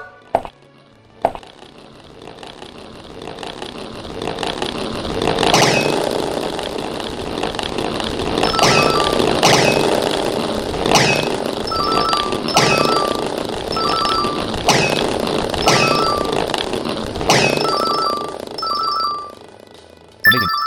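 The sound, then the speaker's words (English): Balls rolling in a video game tutorial give a steady, loud rumbling roll punctuated by many regular clicking knocks, with no talk. “So now I will roll 10 balls. Please return the ball.”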